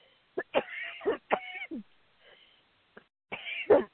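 Coughing from asthma comes in short, harsh bursts: a tight cluster of several coughs, a pause with a faint catch, then another pair of rough coughs, all heard alone against silence.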